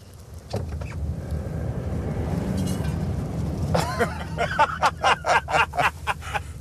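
A car pulls away and drives forward with an inflated balloon set in the middle of the cabin. A steady low rumble builds, then a rapid series of sharp clicks and taps fills the second half.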